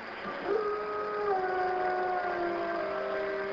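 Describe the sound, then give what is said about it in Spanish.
A long, wailing dog howl, meant as spectral dogs said to prowl around a tomb at night. One sustained tone jumps up near the start, then holds and slowly sinks, faint throughout with no talk. “la gente dijo haber visto perros espectrales aullando y rondando la tumba.”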